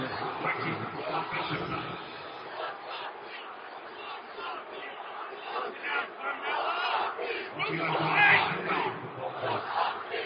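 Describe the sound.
A crowd chants at a Utah Jazz basketball game. The loud, rhythmic mass of voices swells and dips across the whole stretch and surges strongest near the end.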